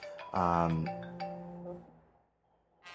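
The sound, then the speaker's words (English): A phone ringing: a bright electronic tonal chime, then a softer sustained tone that fades, a brief quiet, and the start of another ring. “excuse me, I gotta take this phone call.”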